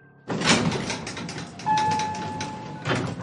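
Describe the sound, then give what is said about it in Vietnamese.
An elevator door slides open with a broad mechanical whoosh. A soft, steady chime tone holds through the middle, and the motion swells again near the end. The sound is moderately quiet, with no voices. “Theo tiếng chuông êm tai nhắc nhở, cửa thang máy đang mở ra.”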